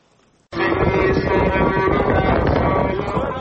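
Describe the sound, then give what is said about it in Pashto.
Strong, dusty wind blowing across open ground in Helmand: a loud, steady roar that starts abruptly after a quiet moment and continues throughout, with rough buffeting against the microphone. “دوړې او سخت باد چلیږي”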